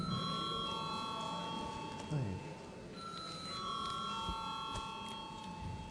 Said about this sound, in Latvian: Lūdzam atbalstīt. Paldies, lūdzu zvanu.